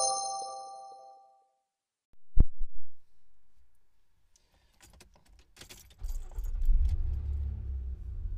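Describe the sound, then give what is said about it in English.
Car sounds: a fading chime-like ring, then a single heavy thump, a few faint clicks, and the engine starting into a low, steady rumble. One voice briefly speaks. “you're thinking that was the sound of a car, you're correct.”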